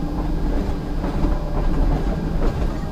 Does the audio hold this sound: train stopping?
yes